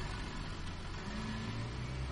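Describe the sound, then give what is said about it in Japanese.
Bus bound for Higashi-Okazaki pulling away from its stop, a loud, steady engine rumble with broad road noise and a low drone that holds through the whole stretch, with no voices. “乗りませんか？東岡崎行き発車しまーす。”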